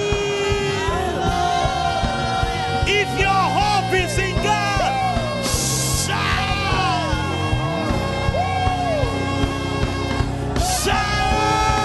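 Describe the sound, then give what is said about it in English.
A church audience shouts and screams in praise during a Sunday service, a dense and continuous wall of loud voices with rising and falling yells and two sharper bursts of high screaming. “Somebody give the Lord a loud shout. Give him a scream.”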